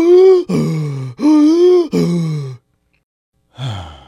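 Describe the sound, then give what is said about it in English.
Exaggerated deep breaths demonstrated by a voice as loud, voiced sighing breaths, four in a row alternating between a higher and a lower pitch, then a pause before another begins. “take a few deep breaths like this.”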